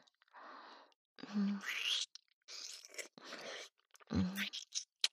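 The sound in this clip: Soft, wet kissing and lip-smacking sounds come in a series of short bursts separated by brief pauses, intimate and close, with faint breathy whispering between them.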